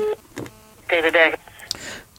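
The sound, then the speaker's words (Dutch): A telephone number being dialed: a few short electronic keypad tones mixed with garbled, voice-like sounds. “Nou, dan ga ik die maar even bellen of dat hij deze man kent.”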